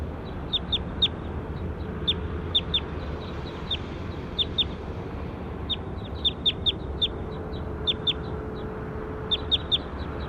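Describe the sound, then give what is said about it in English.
A bird calling during a field recording, short high chirps that come in quick clusters of two or three and repeat many times over a steady background hiss. “We're recording bird two again.”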